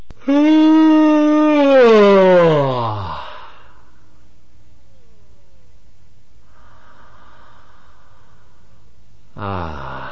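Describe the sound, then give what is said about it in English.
A long voiced yawn that rises slightly then slides down in pitch, followed by a few faint, quiet breaths and then the loud start of another yawn. “Now, here's a yawn, four breaths, and another yawn.”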